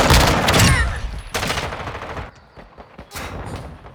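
Video game pistol gunfire in an online shooter match opens with a loud rattling burst. A few more sharp volleys follow, separated by quieter gaps.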